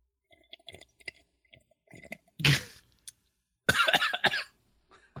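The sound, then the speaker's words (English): A person coughs while sipping coffee. Faint clicks and mouth noises lead into one short, harsh cough, then a longer, rougher burst of coughing, with a few small sounds after. “actually coughing”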